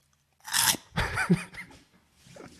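Crunchy eating close to the microphone: a few loud, crisp crunching bites and chews in short bursts separated by brief pauses, the last ones fainter.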